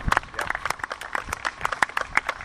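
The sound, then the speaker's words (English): An audience gives a short round of applause, heard as many separate, crisp hand claps in an uneven patter rather than a thick wall of sound, fairly quiet overall. “So, one more round of applause for Chris,”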